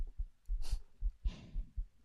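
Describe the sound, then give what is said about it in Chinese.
A faint heartbeat thuds low and soft in a steady rhythm, a few dull beats with quiet breathy noise drifting over them. “她说，心跳声会让人安心下来。”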